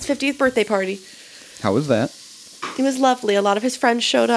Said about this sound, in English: By the way, that's the sound of chorizo.